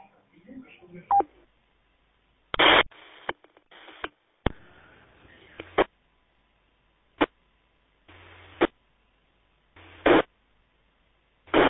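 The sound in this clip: Telephone dialing tones ring out as many short, loud tone bursts at irregular intervals, separated by silences.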